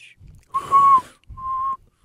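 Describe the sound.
Whistling by sucking air in: two fairly steady mid-pitched whistled notes, the first longer and slightly wavering, the second shorter, each with soft breathy noise around it.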